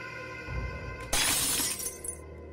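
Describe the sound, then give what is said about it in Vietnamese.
Bowls and plates fall and break in a kitchen: a low rumbling clatter builds, then one loud shattering crash of crockery bursts out and trails off in scattered rattling. No voices. “Có tiếng loạn xoạng của bát đĩa rơi dưới bếp.”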